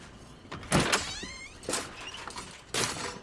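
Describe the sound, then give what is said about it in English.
The side door of a rented RV is opened at night, giving a few separate thuds and clunks spaced about a second apart over a faint hiss. “Under cover of night, Ming leads Beth and Mary across his yard to the side of his rented RV. He opens the door.”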